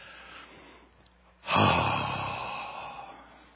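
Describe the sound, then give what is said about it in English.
A person takes one deep breath: after a quiet stretch, the breath starts abruptly and loudly, then trails off slowly into a long, soft tail. “So let's take a breath with that,”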